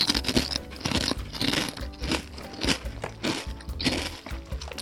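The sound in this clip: Crunching of potato chips being chewed while tasting, with many crisp, irregular crunches following one another in a steady chewing rhythm and no talk over them.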